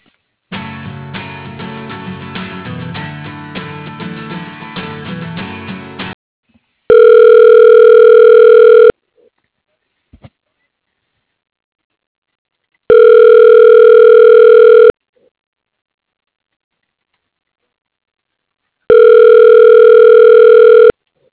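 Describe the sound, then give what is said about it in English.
Telephone ringback tone as a call is transferred to voicemail: three steady, loud two-second rings separated by silence, following a denser tonal passage at the start. “Let me put you through to her voicemail, okay?”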